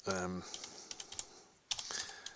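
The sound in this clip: Computer clicking while browsing the internet: a run of many sharp, light clicks at an uneven pace, with a pause in the middle, after a brief moment of voice at the very start.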